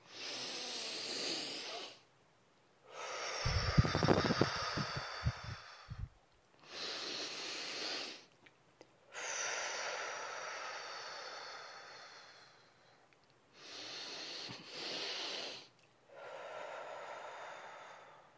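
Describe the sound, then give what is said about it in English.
Slow, deep breaths in and out during a guided breathing exercise: several long, quiet airy breaths separated by short pauses, each swelling and fading gently, with no talking. “let's take a few deep breaths, okay? Inhale to the count of four, slowly, and exhale to the count of four.”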